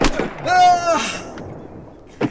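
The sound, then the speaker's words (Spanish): A firing squad's rifle volley produces sharp, loud bursts, with a shouting voice in between the reports. “¡Soldados! ¡Presente! Sí. ¡Alistre su armamento! ¡Ya! ¡Apunte! ¡Fuego!”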